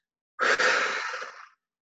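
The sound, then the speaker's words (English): A single big, deep breath, a breathy rush of air that swells at once and holds steady for a little over a second before it cuts off. There is no talk around it. “And you take a big deep breath.”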